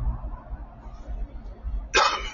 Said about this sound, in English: I'll try to use the mute button so I don't have to cough in your ear.